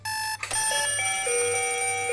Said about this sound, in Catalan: Com et despertes cada dia? Ets dels que fan servir despertador?